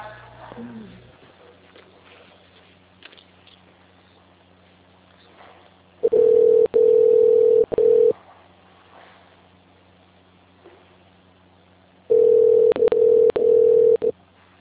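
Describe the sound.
Telephone tone after a dropped call: two long stretches of a steady, mid-pitched electronic tone broken into short beeps, separated by quiet line hiss.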